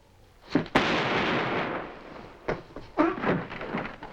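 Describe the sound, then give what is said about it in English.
A gunshot in a radio drama, fired at a man who tries to flee: one sharp, loud crack followed by a long, noisy, hissing decay, then a few further thumping bursts. “So Ray tries to make a break for it. Unser shoots him, and Ray falls down onto the floor.”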